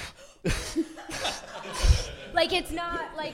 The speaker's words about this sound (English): Well, one thing I noticed about the very handsome and talented John Boyega is that he breathes through his cheeks, so he goes.